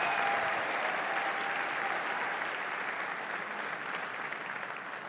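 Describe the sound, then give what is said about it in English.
A church audience applauds to welcome the senior pastor: thick, continuous clapping from a large crowd, strongest at the start and easing slightly as it goes on. “Would you give a lovely big hand of welcome, please?”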